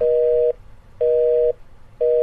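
A mobile phone busy tone follows a dropped call: a steady mid-pitched beep repeats at an even on-off rhythm, with two full beeps and a third cut short.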